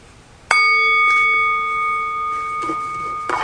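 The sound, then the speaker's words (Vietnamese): A bell struck in the ordinary way gives one loud metallic strike, then rings on with steady, clear overtones that slowly fade. Faint knocks follow near the end. “Bây giờ quý vị nghe mình đánh chuông thường, cái này nó dùng đánh chuông thường được, đánh chuông thường này”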